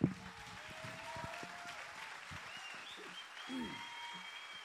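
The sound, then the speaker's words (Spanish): Faint, steady applause rises from a crowd at a social movement gathering. A few voices and short calls can be heard over the clapping throughout. “cuánto gusto este aplauso”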